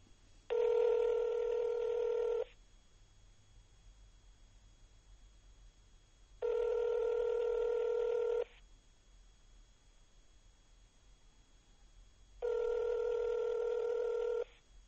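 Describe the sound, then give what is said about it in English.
Ringback tone of an outgoing phone call ringing unanswered: three evenly spaced buzzy tones, each lasting about two seconds, separated by roughly four-second gaps of near silence. “Yeah, now we're gonna try to call him again.”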